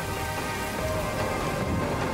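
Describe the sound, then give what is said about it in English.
Steady rain falls in a perfume advertisement scene set in the desert, a continuous even hiss of drops, loud and unbroken, with no voices. “She is in the rain in the desert. It's the rain.”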